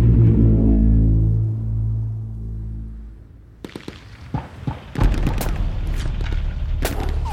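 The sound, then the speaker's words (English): Gunfire in a fight among stone walls: a low, droning hum gives way to several sharp, loud cracks and bursts, scattered irregularly over the second half. “All around him, bullets whiz by and ricochet off the stone walls. The shooting has been going on for half an hour already,”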